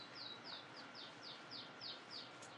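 A bird sings a rapid series of short, high, downward-sweeping chirps, evenly spaced and faint above a steady background hiss.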